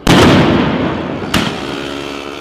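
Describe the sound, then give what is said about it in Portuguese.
A bomb explodes at a street protest: a loud blast at the start with a rough rumble that slowly fades, then a second, shorter bang partway through. “Aí, a bomba.”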